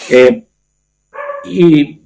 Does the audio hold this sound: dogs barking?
yes